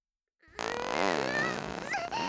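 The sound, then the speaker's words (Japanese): A single long, loud fart, buzzing and tonal with a wavering pitch, holding for nearly two seconds after a moment of silence. “いっぱい臭いおなら出ちゃう。”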